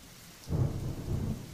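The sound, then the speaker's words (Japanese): Rain with a low rolling rumble of thunder that swells in after a brief quiet hiss and holds, faint and steady, to the end. “7月14日また雨。”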